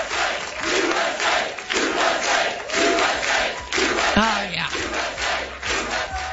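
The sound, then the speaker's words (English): Soccer fans chant together in a stadium, a loud, dense, sustained crowd roar with rolling rhythmic swells of many voices, steady throughout. “I hope to hear this kind of chanting at SoFi Stadium tonight.”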